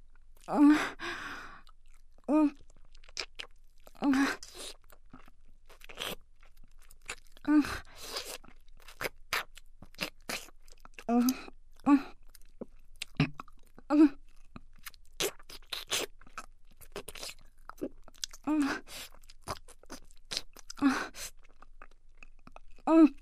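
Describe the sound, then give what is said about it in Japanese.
Noisy, wet mouth sounds of chewing and swallowing repeat in many short bursts across the stretch, with sighing breaths between them. “軽く咀嚼して音を立てて下品に飲み込んでいきます。”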